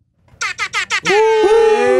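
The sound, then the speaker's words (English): Air horn sound effect blasting four short, loud bursts followed by one long sustained honk, harsh and rich in harmonics, with no voices. “we talked about the air horns. I got that shit. Oh, Duffy literally has that. Air bombs.”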